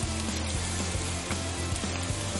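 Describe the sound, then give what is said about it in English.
Brown rice sizzles in a pan with garlic, ginger, bok choy and red chili flakes, a loud, steady frying hiss with scattered small crackles and pops throughout. “and then your brown rice right over the top. I'm going to let that cook a second as we add our garlic and ginger.”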